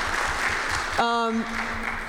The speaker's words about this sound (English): We'll take those applause. We'll take that.